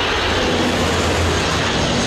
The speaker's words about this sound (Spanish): Casi 1.000 bomberos y 4 aviones cisternas luchan contra las llamas.